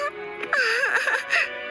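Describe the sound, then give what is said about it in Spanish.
A wavering, whimpering cry from a cartoon pony character: one quivering, sobbing whine of about a second and a half, high-pitched and tremulous. “¡No soporto ver llorar a Fluttershy! ¡Espate! ¡Me encoge el corazón!”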